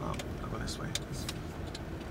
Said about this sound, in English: So we're in his car, rolling by the low-slung shops this area is known for.